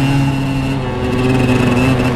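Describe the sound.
A truck engine drones steadily as the truck drives, with a continuous low, humming roar and a constant level across the whole clip.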